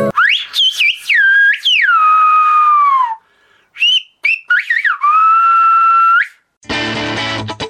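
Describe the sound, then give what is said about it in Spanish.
Whistled speech in the Gomeran whistled language, a radio station's name rendered as several loud, sustained whistled phrases that glide sharply up and down in pitch between brief pauses, with no talking. “Permítanme compartirla con ustedes, con ese regalo que los maestros gomeros me hicieron. Vamos a decirlo silbado.”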